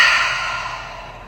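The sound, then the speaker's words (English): A single deep breath exhaled through an open mouth, a soft, airy whoosh that begins strongly and slowly fades over about a second, heard alone. “Deep breath in. Open mouth. Exhale.”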